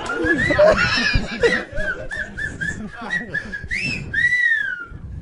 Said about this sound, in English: That was me whistling.